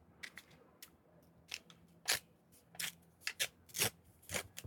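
An envelope being opened: crisp paper tearing and rustling in many short, irregular bursts, fairly quiet and without talk.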